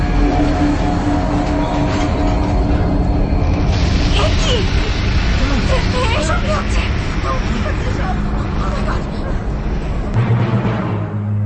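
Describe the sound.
A train rumbles heavily at night as it comes to a stop, a dense, loud, steady roar of low rail noise with a hum of crowd babble mixed in throughout.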